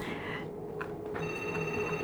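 Telephone ringing: a bright electronic ring of steady, high tones starts partway through over a low background hum, with no voices.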